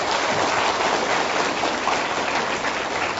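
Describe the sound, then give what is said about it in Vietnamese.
Applause from an assembly of Buddhist followers honouring the organising committee: a steady, dense wash of clapping that holds evenly throughout with no voices over it. “Thì xin đại chúng chúng ta cùng một tràng pháo tay tán thưởng ban tổ chức cũng như tất cả quý vị Phật tử”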